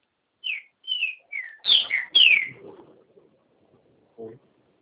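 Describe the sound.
A bird sings a series of clear, high whistled chirps that come quickly one after another and then stop, followed by quiet.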